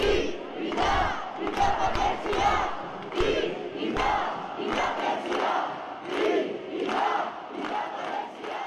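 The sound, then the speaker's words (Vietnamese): Protesters demanding independence for Catalonia chant in unison, a rhythmic crowd chant that swells and falls in repeated bursts of massed voices, each phrase roughly a second long. “Đó là tiếng hô của những người biểu tình đòi tự trị cho Catalonia.”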